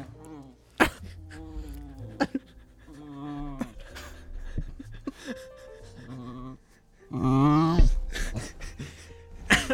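A dog whimpers close into a microphone, a run of thin, high whines mixed with panting breaths, with a louder burst of whining near the end.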